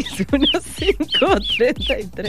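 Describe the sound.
A person's voice imitates a bird call with many rapid chirps and warbling notes that sweep up and down in pitch, in a quick unbroken run.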